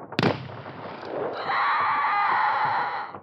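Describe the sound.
A shotgun blast fires buckshot in a video game: one sharp, loud crack, then a swelling hiss and rumble that holds steady before fading.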